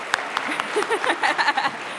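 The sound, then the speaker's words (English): Scattered audience clapping with a few sharp claps and murmuring voices, following a question put to a crowd at a talk about meaning and purpose in life; brief and moderately loud. “Yes, I applaud that too.”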